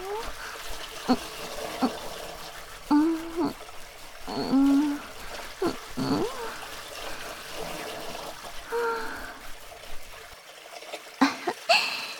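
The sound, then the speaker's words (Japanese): Water trickling and splashing while a bathtub is washed, an ongoing soft flow under a voice speaking, then falling quiet near the end. “お風呂を洗ってたとこだけど。”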